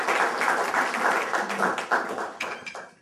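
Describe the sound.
Audience applause welcomes a guest lecturer at a talk on 3D integration: a dense wash of clapping that thins and fades toward the end.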